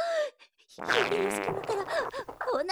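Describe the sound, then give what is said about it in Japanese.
A fart from someone with a painful, upset stomach, struggling to hold it in while in an elevator: a brief soft sputter, a short pause, then a loud, sustained, wavering blast of about two seconds. “おなら出てくる、臭いおなら撒き散らしちゃう”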